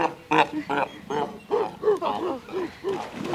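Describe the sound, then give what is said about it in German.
Seals barking, a run of many short, hoarse, harmonic barks repeating in an uneven rhythm at moderate loudness. “das sind die Robben oder Seehunde, nicht?”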